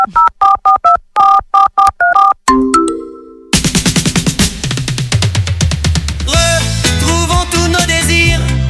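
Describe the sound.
Mobile phone keypad tones while a text message is sent: a quick run of short, bright beeps, then a brief chime, followed by a longer melodic jingle.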